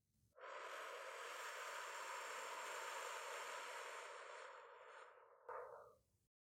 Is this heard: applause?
no